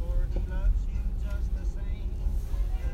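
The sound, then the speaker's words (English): A steady low rumble of a car being driven, the engine and road noise droning evenly throughout while a person talks over it. “So, sorry if you couldn't tell, I'm driving and I'm parking right now.”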